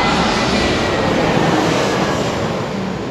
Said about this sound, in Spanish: deja que pase el avión